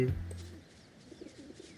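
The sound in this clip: Pigeons cooing: a strong, low, throaty coo at the start, followed by a few fainter, murmuring calls.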